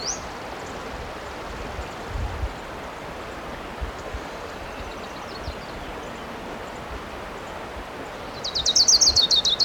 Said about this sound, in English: I see the bird. It's definitely an orange crown.